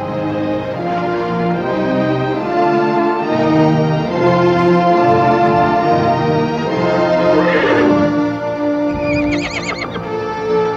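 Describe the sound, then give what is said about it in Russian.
A chestnut mare neighs joyfully on a riverbank as she greets her foal: loud, sustained, richly harmonic whinnying with a wavering pitch that carries through the whole stretch. “Рыжая кобыла радостным ржанием встречает своего жеребенка на берегу.”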